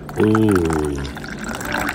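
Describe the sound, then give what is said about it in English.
Tea pours at a Peking duck restaurant, a soft, continuous liquid trickle that runs under a drawn-out voiced exclamation at the start and carries on alone afterward. “That's the sound of tea being poured.”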